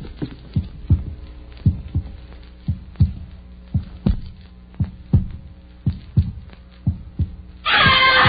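A heartbeat heard through a stethoscope, a woman's pulse running slightly fast: many soft, low thumps in a steady paired lub-dub rhythm over a faint hum, ending in a sudden burst of loud noise.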